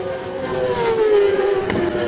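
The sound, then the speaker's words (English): Classic TT Formula One racing motorcycles pass on a road course, their loud engine whine sliding downward in pitch as they go by. “Two white flashes come out. Classic TT Formula One bikes. Here we go.”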